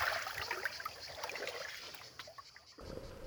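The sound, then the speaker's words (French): Underwater sound of a warm sea at a Corsican beach: a steady bubbling, hissing wash that holds an even level, then turns into a deeper, duller rumble near the end. “Vous entendez ? C'est le son des profondeurs des eaux chaudes de Palombaja, la plus belle plage corse.”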